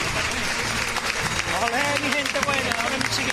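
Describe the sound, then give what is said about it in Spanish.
Crowd applause accompanies a religious procession as the Virgin's float moves forward, with the campanilleros keeping time. The clapping is dense and continuous, with voices over it. “Y va de frente con esos aplausos, compasan los campanilleros.”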